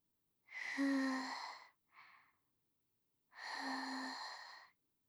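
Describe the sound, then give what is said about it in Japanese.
Someone blows on hot food to cool it: two long, soft, breathy blows with a faint voiced tone, and a short puff between them. “それじゃあ、まだちょっと暑いだろうから、よーく冷ましてあげるわね。”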